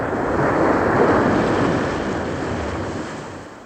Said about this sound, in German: Dann setzte die Maschine auf dem Wasser auf.